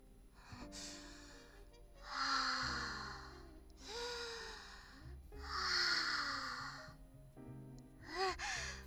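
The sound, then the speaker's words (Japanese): Slow, deep breaths from a nervous person calming down: several quiet, drawn-out inhales and exhales with pauses between them. “緊張しちゃって。よし、深呼吸しますね。”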